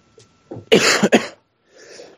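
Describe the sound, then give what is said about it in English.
A person gives a short run of a few harsh, throaty coughs, followed by a softer breathy exhale after a brief pause. “sorry guys about the coughing.”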